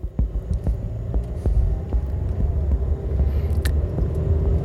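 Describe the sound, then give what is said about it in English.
A car driving on a road in Spindale, North Carolina, giving off a steady low engine rumble and road hum with faint, regular light taps throughout. “I'm gonna drive up to the Word of Faith Fellowship. I think it's right here to the right.”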